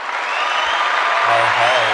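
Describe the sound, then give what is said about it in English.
Applause sound effect triggered from a soundboard: a dense, steady wash of clapping that stays loud and even for its whole length. “Whoa. I love you have a soundboard. I love that. I'm getting a custom one made up.”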